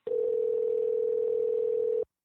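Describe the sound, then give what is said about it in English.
A telephone tone sounds as a call is placed to a cell phone: one steady, unbroken, mid-pitched tone lasts about two seconds, loud and alone, then cuts off abruptly. “Let me dial him up on... He may have lost his internet connection. I'll call him on his cell phone.”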